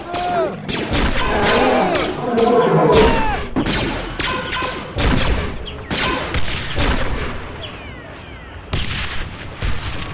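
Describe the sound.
A volley of gunfire in a battle after an order to fire at will: many overlapping shots, booms and crashes in a continuous loud barrage, with a few brief whistling tones.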